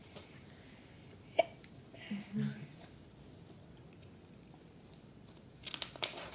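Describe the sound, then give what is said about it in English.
Hiccups: a few short, sharp, faint hiccup sounds, one isolated early and a quick pair near the end, separated by quiet stretches with soft incidental noise. “Ooh, hiccups. Hiccups. Me too. Do you have the hiccups?”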